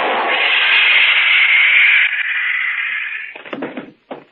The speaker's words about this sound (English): That stun gun blast ought to keep him on ice for a couple of hours. Long enough to get him down to headquarters, anyway.